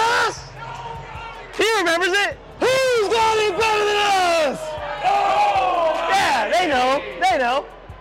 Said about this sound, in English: was yelling out this chant to the Niners fans. And they were participating. They remembered it. Let's see if they remember this one.